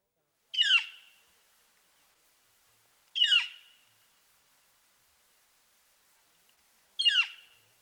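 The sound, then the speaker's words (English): A northern flicker gives its loud call note three times, each a sharp, high, downward-sweeping call alone against near silence, spaced a few seconds apart. “The flicker also has a loud call note, which sounds like clear.”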